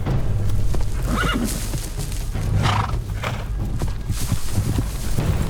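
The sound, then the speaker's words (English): Horse whinnies, from a horse galloping off across dunes near the shore, cut through a constant dense roar of noise, with a faint clatter of hooves underneath. “The horse gallops off.”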